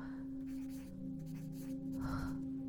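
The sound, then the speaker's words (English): Faint scratching of a pen writing in a journal, soft and intermittent over a low, steady background tone. “Orly is shaken from her writing as Caitlin approaches her. She places her journal in her bag and watches him.”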